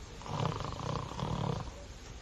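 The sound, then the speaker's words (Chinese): A storyteller's voice imitates an old man snoring with low, rasping, rumbling snores that swell and ebb in a couple of cycles. No talk is heard. “罗成坐这儿听着，听这老头鼻息之声越来越大，最后打上呼噜了”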